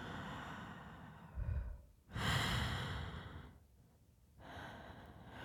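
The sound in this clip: Slow, calming breathing, a few long airy inhales and exhales, soft and faint, with unhurried pauses between breaths.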